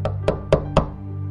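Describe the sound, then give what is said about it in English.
Four evenly spaced, heavy knocks on the prison entrance door, hammered violently in a steady rhythm over a faint low hum. “The minister Pomponios came to the prison entrance and began to knock violently.”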